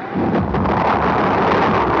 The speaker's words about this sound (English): Lift off! It's going! It's good! A beautiful shot! A beautiful shot!